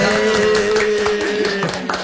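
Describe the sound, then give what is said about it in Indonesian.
Hand clapping at an Indonesian talk show, a few sharp claps spaced across about two seconds over a steady, sustained tone. “Tepuk tangan dulu, Kak.”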